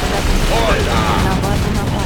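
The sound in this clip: Dense, loud video-game gunfire roars without a break, mixing sustained shooting with explosive booms into a continuous wash of noise. No single shot stands out on its own.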